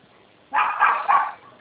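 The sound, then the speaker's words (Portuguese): A small dog barks in a short burst of sharp, high yaps, loud and alone, with a thin, phone-line quality. “É que meu cãozinho tá latindo aqui, você vai achar esse barulhinho aqui”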